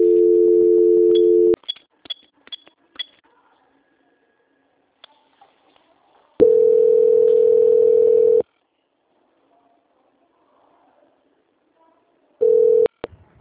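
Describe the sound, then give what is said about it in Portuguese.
Telephone line tone during a call transfer to another department: a steady low hum that sounds three times, long, then about two seconds, then short, with quiet gaps and scattered clicks between. “vou pedir para você aguardar em linha, que eu vou transferir para o setor de qualidade para poder dar andamento na contratação, tudo bem? Tudo bem. Só um momentinho. Transferência.”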